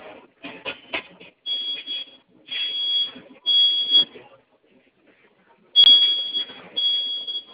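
A fire alarm activated directly from its control panel sounds in intermittent high, buzzing bursts, several irregular pulses separated by short gaps, with a longer pause before it resumes.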